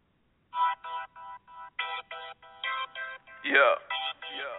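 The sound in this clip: A phone ringtone sounds for an incoming caller, a chirpy melodic pattern of many short, evenly spaced tone bursts that keep repeating.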